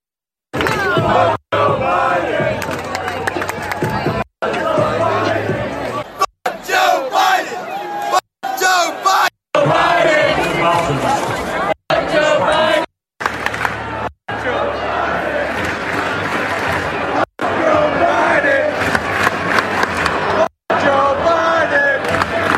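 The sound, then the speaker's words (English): College stadium crowd loudly chanting against Joe Biden, a massive rhythmic roar of voices broken by many short silences where words are cut out. “It's confirmed at least 5 college stadiums where F Joe Biden chants broke out.”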